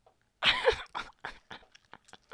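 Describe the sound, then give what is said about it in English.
Someone chews Haribo sweets close to the microphone: one larger chomp, then a string of shorter, softer bites and squelches that fade away. “Okay, this is going to be some like ASMR stuff, isn't it? Because we're like eating. Okay, this is the sound of Haribo.”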